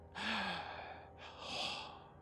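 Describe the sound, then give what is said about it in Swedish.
A man's deep, frightened gasp: a sharp, partly voiced intake of breath followed by a second long, breathy rush of air, moderately loud and with no words spoken. “och tar ett djupt förskräckt andetag när han ser dem”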